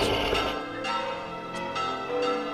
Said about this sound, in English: the roaring and the bells, they are off in the general direction of the moon